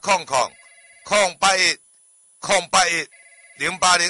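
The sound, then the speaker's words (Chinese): A telephone rings with a steady, sustained electronic tone, interrupted by several loud, voice-like harmonic bursts in an uneven rhythm. “电话”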